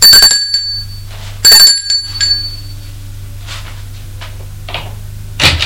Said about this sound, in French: Arrivé à l'étage, il sonne.